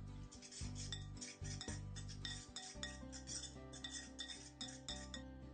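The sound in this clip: A utensil stirs onion, ketchup, Tabasco and Worcestershire sauce together, with continuous scraping and light clinking against the dish in a quick, uneven rhythm.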